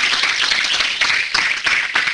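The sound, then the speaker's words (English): A church audience clapping in praise during a sermon: loud, dense handclaps in a continuous wash that swells in a few stronger surges. “Give God a hand clap of praise up in here, up in here.”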